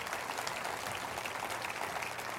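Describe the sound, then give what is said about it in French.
Audience applause for the wildfire-threatened Kelowna region: steady, dense clapping that holds evenly throughout and stays fairly faint, with no voices standing out. “Est-ce qu'on peut applaudir Kelowna et leur dire qu'on prie pour eux?”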